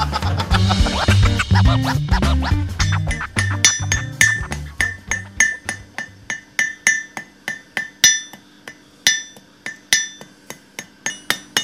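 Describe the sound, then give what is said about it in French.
A blacksmith hammers a square iron bar at the forge, knocking off its corners to round it into a stem for leaves. A dense clatter at first settles into many sharp, evenly spaced ringing metallic strikes. “Alors, là, je suis en train de briser les angles pour passer du carré au rond.”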